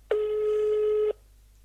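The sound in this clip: A telephone tone sounds as a call is placed: one steady, clear, buzzing tone lasting about a second, then it cuts off abruptly into quiet.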